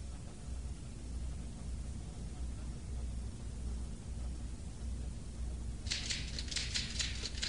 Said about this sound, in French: Elle tape à la machine. Répétez, Marie est secrétaire et elle a une machine à écrire.